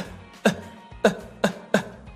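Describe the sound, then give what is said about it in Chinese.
Four short, light coughs from a person, spaced unevenly over about two seconds. Each is a brief, sharp burst, with no talk in between. “稍微的小小的咳一下就可以了”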